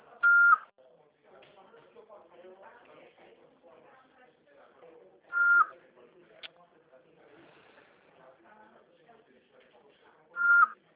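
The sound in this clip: A voicemail recording beep sounds three times, each a short, high, clear tone spaced about five seconds apart. Recorded prompt speech and faint talk fill the gaps between the beeps.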